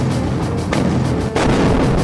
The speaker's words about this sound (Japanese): ならば撃ち続けろ回転は今より砲台とする